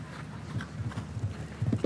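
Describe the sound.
Horse galloping during a show jumping Grand Prix in Hamburg, a rhythmic run of muffled, low hoofbeat thuds at a steady, quick pace.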